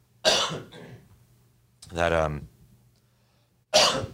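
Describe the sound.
Three separate coughs spaced well apart, the middle one more voiced and throaty, over a faint low hum.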